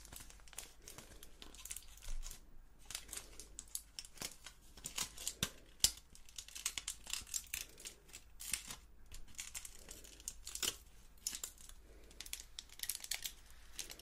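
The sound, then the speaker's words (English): Aluminium hair foils being removed at a hair salon make many crisp crinkles and papery crackles in a steady, irregular flow, with no talking. “I'm just going to remove those foils now, so we'll begin with this side.”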